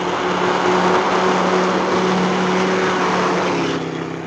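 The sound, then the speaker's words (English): A car speeding along a winding road, heard as a loud, continuous engine roar with a steady low hum beneath it, easing slightly near the end. “Hey, did you see that? What a crazy way to drive on a road like that. I hope he doesn't meet anyone on a bend, that's all.”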